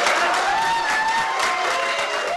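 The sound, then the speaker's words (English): Sugar Land Republicans applaud Tom DeLay with steady, dense clapping from a crowd, with cheering voices mixed in throughout. “But don't read too much into this resounding applause. Sugar Land Republicans have known Tom DeLay for a long time, and many remain loyal to him.”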